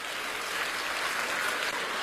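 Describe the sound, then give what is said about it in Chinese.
An audience applauds in a steady, even patter of many hands, fairly faint and unbroken for a couple of seconds. “鼓掌、 哎、 热烈一点。”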